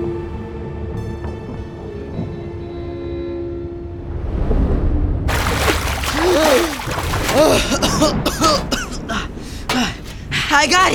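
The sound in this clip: Splashing and churning water from someone swimming. It starts as a muffled rumble under a steady tonal drone, then turns into loud, irregular splashes mixed with strained vocal sounds.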